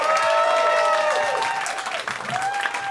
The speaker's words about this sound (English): Guys, keep it going for Ivan Decker.